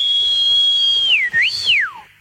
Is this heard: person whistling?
yes